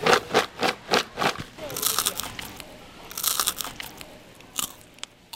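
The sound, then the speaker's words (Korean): Glutinous rice gangjeong, a crunchy traditional Korean sweet, is mixed by hand in a confectionery workshop. A run of regular crunchy bursts gives way to continuous rustling and crackling, with a few sharper crunches. “찹쌀 강정 좀 섞어주세요.”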